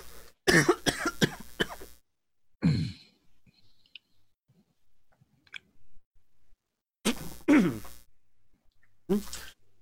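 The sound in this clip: Harsh coughing from a player at a tabletop role-playing game session comes in a few separate fits, the first a rapid run of bursts, then lone coughs and a later pair, with quiet gaps between.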